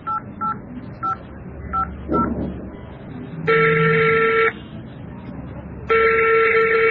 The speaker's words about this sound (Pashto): دا له اوس ورته زنګ ووهم